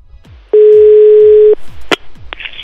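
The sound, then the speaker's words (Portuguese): A loud, steady telephone dial tone holds for about a second as a call is placed, then cuts off, followed by a sharp click and a brief higher tone over faint background sound. “Então vamos ligar para Juliana e vamos tentar reconciliar esse casamento.”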